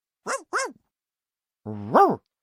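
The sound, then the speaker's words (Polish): A cartoon dog character barking in a children's animated story, two quick high yips in close succession, then a pause and a longer, louder bark that rises and falls in pitch. “Jestem kapitanem okrętu, szczeka pies Dani.”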